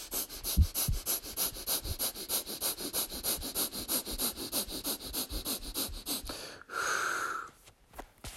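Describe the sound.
Yoga breath-of-fire breathing: a fast, even train of many sharp, forceful nasal sniffs and puffs runs for about six seconds, then one longer, rushing breath sounds before a few quieter, softer breaths.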